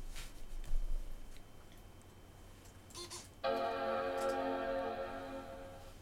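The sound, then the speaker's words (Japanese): Startup chime of a 13-inch MacBook Pro being powered on: after a few faint clicks, a loud, rich sustained chord swells in suddenly and rings steadily to the end. “今の Mac もですね、 ちゃんとジャーンと言って起動するわけです。”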